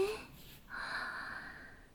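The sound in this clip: A deep breath in during a guided breathing exercise: one airy inhale of a little over a second rises after a brief pause and tapers off softly.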